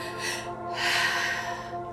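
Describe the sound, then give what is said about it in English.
A full breath is released during a three-part belly-and-chest breathing practice, a soft airy exhale rising and falling over a steady tonal drone. “continue to breathe fully. Three parts, belly, chest, out.”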